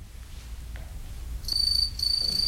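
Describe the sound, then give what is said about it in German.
House crickets chirping in a laundry room and by a stove: a thin, steady high trill that starts midway, breaks briefly, then resumes, faint over a low background hum. “Nur die Heimchen zirpten in der Waschküche und am Ofen.”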